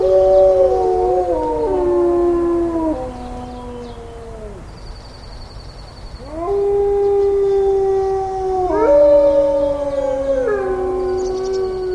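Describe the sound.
Wolves howl at a wildlife center near Yellowstone on an early mid-May morning. Several long, loud, overlapping howls slide and waver in pitch, with new voices rising in as others fade, and no talk.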